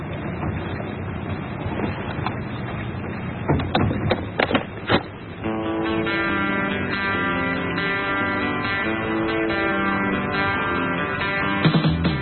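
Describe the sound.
Rock music playing from a cassette tape, preceded by a few seconds of clicks and rattling noise, then a continuous band of sustained tones that runs steadily to the end.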